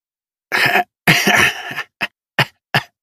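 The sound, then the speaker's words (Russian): A person coughs in a harsh fit, loud and alone. Two longer, rough bursts are followed by three short, sharp coughs spaced apart. “Я закашлялся и закрыл ладонью рот.”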